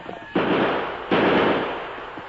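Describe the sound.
Two loud gunshots fired at pursuers, each a sharp blast followed by a long fading tail, spaced less than a second apart, with no voices.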